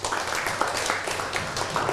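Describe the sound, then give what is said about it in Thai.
Applause from a class of students clapping for a classmate. The clapping is dense and continuous, fairly soft and even throughout, with no clear individual claps standing out. “ปรบมือให้เพื่อน”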